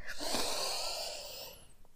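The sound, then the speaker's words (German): A deep breath is drawn slowly in through the nose during a guided Christmas meditation. A single soft, airy inhale swells at the start, then thins out and fades. “Und du kannst einmal tief durch die Nase einatmen.”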